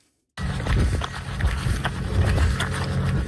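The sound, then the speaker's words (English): Footsteps of a group of running-club runners circling the island at Fort Simpson. After a brief silence, many overlapping thudding strides start up in a steady, fairly loud patter. “that's the sound of runners in Fort Simpson making their way around the island.”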